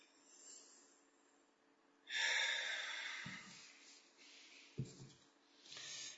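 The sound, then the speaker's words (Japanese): A slow deep breath taken during a lecture-course exercise, a very faint, long airy inhale followed by softer breathing and a few low soft thumps. “はい、深呼吸。”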